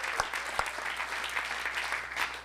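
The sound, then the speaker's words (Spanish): A church audience applauds during a worship service, a steady, fairly faint wash of many hands clapping that runs throughout, with a couple of low thumps near the start. “Démosle un aplauso al Señor Jesucristo.”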